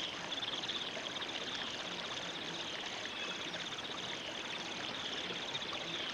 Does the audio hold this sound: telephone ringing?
no

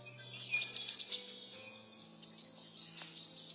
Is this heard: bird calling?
yes

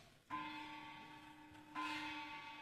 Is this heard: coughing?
no

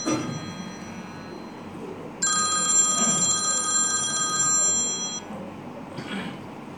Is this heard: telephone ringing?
yes

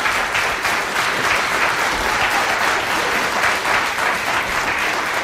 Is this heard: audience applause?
yes

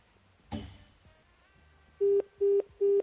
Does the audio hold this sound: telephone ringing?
yes

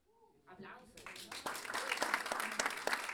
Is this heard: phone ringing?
no

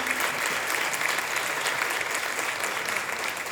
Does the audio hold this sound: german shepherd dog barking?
no

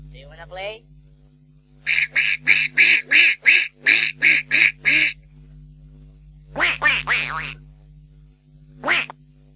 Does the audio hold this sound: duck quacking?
yes

